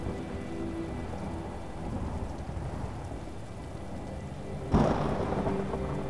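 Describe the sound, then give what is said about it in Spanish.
Steady rain from a summer thunderstorm falls throughout, and a sudden loud crack of thunder breaks in near the end, followed by heavier, louder rain. “Obsérvala desde arriba, ya que esta tormenta es tan solo para disfrutarla.”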